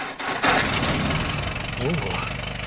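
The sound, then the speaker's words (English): A car engine is started with a key, bursting into a loud roar after a brief pause and then running at a steady, rumbling idle, with a voice speaking briefly over it. “He turns the key and starts the engine.”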